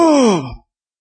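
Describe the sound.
A single wordless groan voiced in imitation, a drawn-out moan that slides steadily downward in pitch for about half a second before breaking off abruptly into silence.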